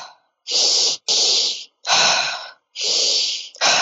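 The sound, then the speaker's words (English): Forceful deep breaths from a breathing exercise, drawn into the stomach: five loud, rushing breaths follow each other closely with short gaps, and the last is cut off. “So the inhale is kind of forceful. The exhale is passive. So you breathe in deeply into your stomach, not into your chest.”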